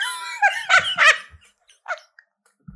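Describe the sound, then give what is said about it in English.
A dramatic dog throwing herself on the floor lets out a few loud, whiny yelping vocalizations in quick succession, followed by a softer short grumble and a faint thump. “Piper, my dog, I'm sure you've realized at this point, is extremely dramatic. She literally just threw herself on the floor,”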